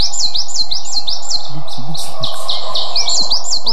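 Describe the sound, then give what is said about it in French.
A coal tit singing: quick, high, repeated chirping phrases in a brisk, steady rhythm, loud and continuous throughout, with other high bird calls mixed in. “La mésange noire, qui adore les conifères, elle. On voit bien, on la trouve en altitude.”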